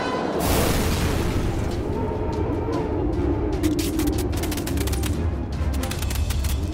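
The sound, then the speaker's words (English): Missile strike explosions from energy-disruptor missiles in a sci-fi audio drama. A heavy, roaring rumble runs throughout, dense with crackling bursts and sharp impacts, loud and steady with no voices. “The missiles must have been energy disruptors.”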